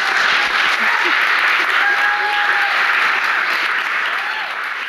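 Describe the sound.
Warm audience applause welcomes an author and a student onstage at a food justice book talk. It is loud, dense and unbroken for the whole span and eases slightly at the very end.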